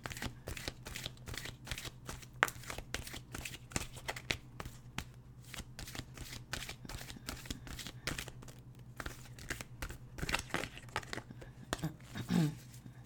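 Oracle cards being shuffled, a quiet, steady run of rapid papery flicks and rustles throughout, with a slightly fuller rustle near the end.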